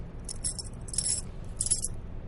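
Keys jangling on a large bunch while someone hunts for a small key beside an orange one to open a storeroom door; a few bright metallic jingling bursts rise faintly over a low steady hum.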